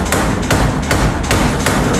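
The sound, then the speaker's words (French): Modern power hammer pounding in a blacksmith's forge, a steady series of loud, heavy, evenly spaced blows over constant workshop noise. “Le forgeron a toujours un marteau comme depuis l'invention du marteau et puis il a aussi un marteau pilon, le marteau pilon qui s'est modernisé.”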